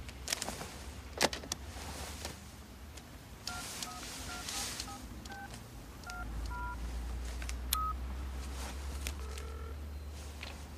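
Touch-tone dialing on a limousine's car phone: a quick run of short electronic beeps, then a few more spaced-out tones, over a steady low engine hum.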